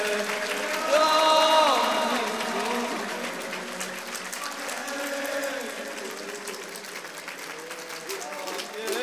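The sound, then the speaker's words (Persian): Audience clapping along to a live Persian song, steady claps running under the singing voices and music throughout. “بارونه دست بزن و بخونید”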